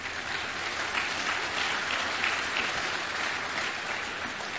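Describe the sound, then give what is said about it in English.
A church audience applauds a man with steady, dense clapping that holds at an even loudness throughout, with no pauses or voices standing out. “you will not be applauded just like you applauded this man.”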